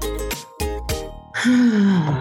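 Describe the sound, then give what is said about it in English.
A person groaning: a few short voiced bursts, then a longer, louder groan that slides downward in pitch, heard alone without speech. “I think I was groaning. You were groaning. You were moaning and groaning.”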